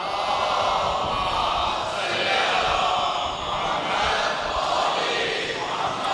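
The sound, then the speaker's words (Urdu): A large crowd at a religious majlis loudly chanting the salawat slogan in unison, a dense, roaring wash of many voices that holds steady and loud for all six seconds. “بر حبیب خدا ختم الانبیاء آواز بلند نعرہ صلوات۔”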